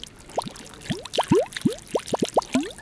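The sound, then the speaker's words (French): Water gurgles like pipes, producing many short, hollow, bubbling notes that each sweep upward in pitch. The notes come in an irregular, fairly quick series at moderate loudness. “L'eau qui glousse comme une tuyauterie.”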